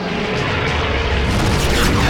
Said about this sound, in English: Mr. Bright, enemy aircraft approaching. What? No, it can't be! A kamikaze attack!